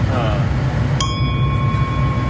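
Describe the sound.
A ship's bell is struck once, and a bright metallic ding rings on with a sustained, steady tone over a low background rumble.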